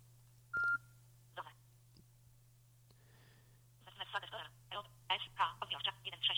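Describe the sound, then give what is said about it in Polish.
Short electronic beep from an app on a tvOS device confirming that an operation has finished: one high, clear tone, followed by a person speaking. “Usłyszeliśmy takie charakterystyczne piknięcie, co świadczy o tym, że operacja się zakończyła.”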